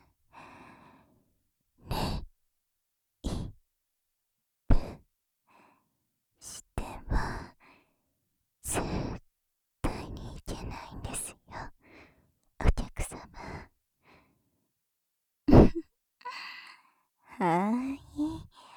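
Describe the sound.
Soft breaths blown close into the ear: many short, airy puffs and sighs spaced out between pauses, some with a faint whispering voice, all quiet and intimate.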